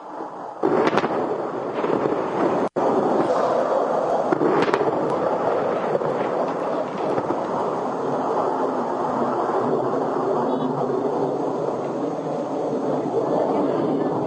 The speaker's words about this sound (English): You can hear the aircraft overhead right now.